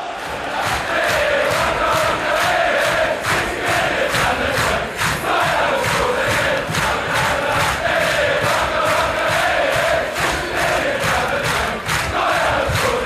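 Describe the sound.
A football crowd roars for an Arsenal player who goes over to take their adulation after a won match. The loud, sustained cheering has rhythmic surges running through it from start to end.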